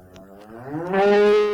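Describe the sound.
A cow, called a wild cow, gives a single loud moo that starts low, rises in pitch and swells into a strong, sustained call, heard alone with no voices.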